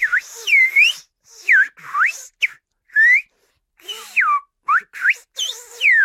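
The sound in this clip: Whistled speech in French, words carried only by whistling in the manner of a whistled language: quick bursts of high, sharply gliding whistled syllables separated by short pauses, loud and alone.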